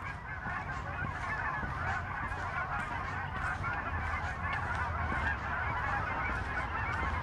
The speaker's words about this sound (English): I don't know if you can hear them. I'm about to be overflown by geese.